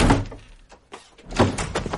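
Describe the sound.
A door to a side room swings shut with a dull, heavy thunk, one of a few knocks and soft thumps amid shuffling movement.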